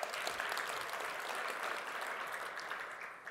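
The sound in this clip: Audience clapping during a live talk, a dense, steady wash of many hands that holds evenly for about three seconds and eases slightly at the end.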